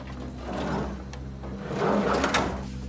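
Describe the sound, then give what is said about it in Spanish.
A van's side door slides open and shut on a parked white van, giving a rolling scrape and a few solid knocks over a steady low engine-like hum. “Abre la puerta lateral. Sube y cierra la puerta.”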